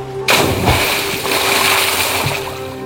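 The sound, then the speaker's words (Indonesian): A boat is lowered and released into the water with a sudden loud splash. Rushing water and low engine-like noise follow and stay steady for a few seconds. “Begini, kau bisa bantu saya kasih turun perahu ini, kah? Bisa, Pace. Kalau gitu, ayo toh angkat sudah. Satu, dua, tiga. Lepas.”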